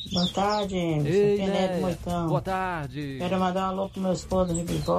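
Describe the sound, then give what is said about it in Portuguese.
Small birds chirping and singing, with faint high twitters heard under a woman's continuous talk throughout. “Olha os passarinhos cantando, ó.”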